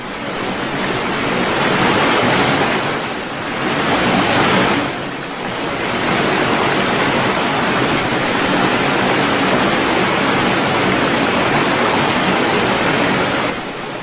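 Huge waves crashing against a rowing boat, a loud, dense roar of rushing water that swells in a couple of surges early on, then settles into a continuous churning wash.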